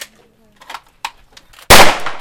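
A single loud gunshot at a police shooting range cracks out suddenly after a few faint, quieter sounds, then its sharp burst rings and decays slowly to the end.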